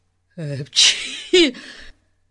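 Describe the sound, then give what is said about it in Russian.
A loud sneeze from a man with a heavy cold, performed by a human voice imitating it: a voiced intake, then sharp, noisy bursts, all over in about a second and a half. “Громко чихнул Гун.”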